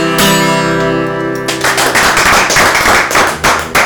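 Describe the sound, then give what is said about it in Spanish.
Applause from an audience at a live performance, starting as a sustained music chord cuts off. Dense, irregular clapping then continues for the rest of the moment at a fairly steady loudness. “Muchísimas gracias por esos aplausos.”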